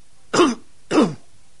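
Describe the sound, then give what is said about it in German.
A man forcefully clears his throat twice: two rough, loud bursts separated by a short pause. “Er räuspert sich kräftig und fragt Minerva”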